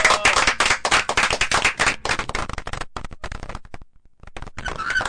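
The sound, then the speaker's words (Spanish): Audience applause at a live show: brisk, dense clapping that thins into scattered claps, breaks off briefly near four seconds, then picks up again at the end. “Un aplauso para ellos.”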